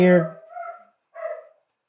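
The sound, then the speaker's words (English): A household dog gives two short, muffled barks separated by a brief pause, fairly faint, just after a voice at the start. “you hear our dog barking. Even he's upset about it.”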